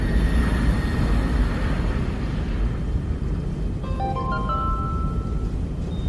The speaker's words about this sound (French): Oh, finally, on décolle.